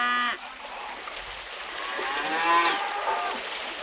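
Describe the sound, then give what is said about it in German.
Cattle moo on open natural grazing land. A short harmonic call comes at the start, then a longer, louder drawn-out lowing call fills the second half. “Rinder. Eine Möglichkeit, gutes Geld zu verdienen in Ländern, die über riesige natürliche Weideflächen verfügen.”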